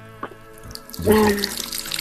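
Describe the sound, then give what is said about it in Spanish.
Water from an opened tap runs into a sink. A few faint knocks come first, then a steady, splashing rush swells in about halfway through and keeps going to the end. “Yo sí estoy abriendo, espérame, estoy abriendo el agua.”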